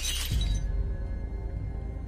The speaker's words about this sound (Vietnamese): Sau đó chiếc hũ bị nó giơ lên cao rồi đập mạnh xuống đất.